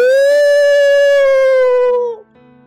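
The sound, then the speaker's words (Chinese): A human voice imitating a startled old elephant's frightened cry, one loud, long, sustained oo-like wail that holds a steady pitch for about two seconds and then drops away abruptly. “忽然，象老爹惊慌的叫了一声：“呜！””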